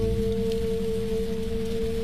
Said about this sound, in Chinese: 外面在下雨